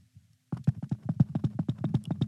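Hoofbeats of a stampeding herd pound in a fast, steady rhythm of many heavy thuds, loud and continuous after a brief quiet start with a few faint knocks.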